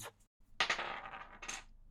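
Dice are rolled on a table during a naval convoy board game. A brief clatter is followed by a short pause, then louder rattling bursts as the dice tumble and settle.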